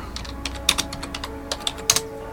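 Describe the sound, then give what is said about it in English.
Keys clatter on a computer keyboard as a web search is typed: many quick, light clicks in an uneven rhythm, faint and without speech. “I've just gone on um, Google and typed in X-Ray Shanghai”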